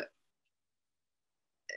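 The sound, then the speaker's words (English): A person burps: a short, throaty, voiced belch, then near silence and another brief guttural burst at the end. Both are fairly soft. “sorry, I'm like burping”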